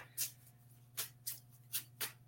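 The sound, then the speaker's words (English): Faint handling of a Chakra Healing Oracle card deck as cards are shuffled and pulled. There are five brief papery swishes and flicks at irregular intervals over a low steady hum. “I'm going to pull again from the Chakra Healing Oracle card deck. I'm going to pull individual cards.”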